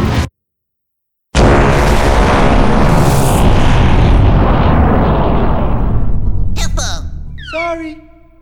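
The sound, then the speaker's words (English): A massive explosion as a whole world is destroyed: after a brief silence, a sudden loud blast bursts out and turns into a long, roaring rumble that fades over several seconds. “In one tragic moment, that world was destroyed.”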